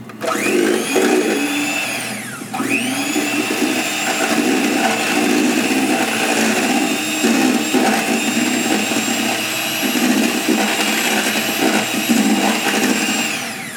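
An electric hand mixer beats a milk mixture for eclair pastry cream, a loud, high, continuous whir with a brief dip early on before the motor runs steadily throughout.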